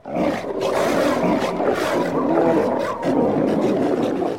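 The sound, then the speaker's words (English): Walruses roaring: a dense, continuous chorus of deep, rough bellowing roars that stays loud and unbroken throughout. “That's a whole lot of walruses. Yeah, and they sound so funny.”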